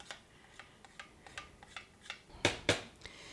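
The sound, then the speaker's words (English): The metal blade of a food processor is pulled from its bowl during apple butter making, giving a faint series of many sharp plastic clicks and taps, with two louder knocks near the end. “And now remove the blade from the food processor. Put all that good apple butter back, or soon to be apple butter, back in the container.”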